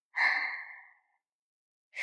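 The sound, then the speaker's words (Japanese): Slow, deep breathing: one long, airy exhale that fades over about a second, then silence until the next breath begins right at the end. “呼吸もゆっくり、ゆっくり深く、”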